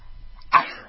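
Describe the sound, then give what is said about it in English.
A person sneezes once, a short, sharp burst of breath after a quiet lead-in, fading quickly. “I'm going to sneeze again. Sorry.”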